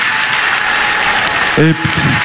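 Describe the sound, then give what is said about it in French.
Audience applause for families at a ceremony, a steady dense wash of clapping that holds throughout, with a brief voice rising near the end. “Donc vous pouvez vous applaudir, les familles.”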